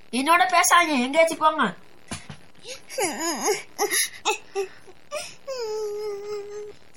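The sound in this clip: A woman crying: several sobbing, wavering wails broken by short gaps, ending on a long, steady, held moan.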